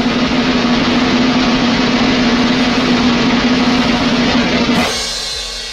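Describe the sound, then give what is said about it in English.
A drum roll builds ahead of a contest winner reveal: a dense, steady, loud roll runs for nearly five seconds, then ends in a bright cymbal crash that fades away. “he is going to reveal the answer after the drum roll, please.”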